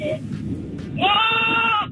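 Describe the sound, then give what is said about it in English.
A person imitates a screaming goat with a single loud, sustained bleating cry. It is strained and buzzy, with bright stacked harmonics, and lasts just under a second before it cuts off. It follows a short stretch of low, muffled noise. “This is my screaming goat”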